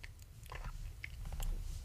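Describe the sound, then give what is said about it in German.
Melon eaten in the video game Minecraft: quick, faint, crunchy chewing bursts repeating in a rapid, irregular rhythm, with no talk. “Oh, eine Melone. Lecker. Melone.”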